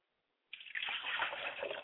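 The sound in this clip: Liquid poured out as a libation during a ritual, an abrupt splashing gush that starts suddenly and keeps up as a steady, fairly faint pour until the end.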